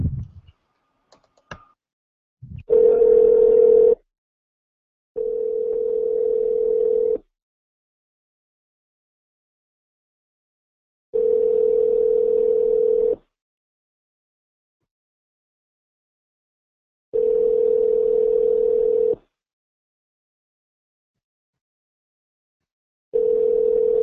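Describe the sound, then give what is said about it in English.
Telephone tone on a redialed call: after a few brief clicks, a steady low tone sounds in regular bursts of about two seconds, separated by longer silent gaps, with four full bursts and a fifth just starting. “And dial again. Dial one more time.”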